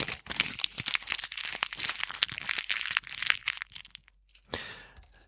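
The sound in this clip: Individually wrapped packaging for a treat is crinkled: dense, crackly rustling runs for about four seconds, then a short pause and a brief final crinkle.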